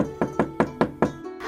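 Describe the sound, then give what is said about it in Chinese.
Knocking on a door: a quick, evenly spaced series of hollow, ringing raps at a brisk tempo, each one sharp and briefly resonant, then stopping. “接着又是一阵敲门声。”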